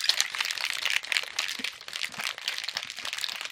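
Steady, hissy rattling as a pea and fennel juice mixture is shaken, continuing throughout in an even, busy rhythm.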